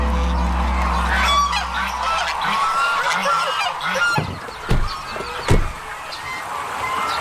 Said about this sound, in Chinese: 身披棕榈，骨架粗壮，头顶黑色肉冠，这是中国最大的鹅——狮头鹅。